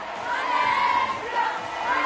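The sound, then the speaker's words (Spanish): Crowd in Madrid acclaiming a Barcelona women's football star: a sustained, fairly loud roar of many voices with shouts and cheering, swelling and easing slightly across the stretch. “La estrella del Barça, aplaudida como no debe ser de otra forma en Madrid.”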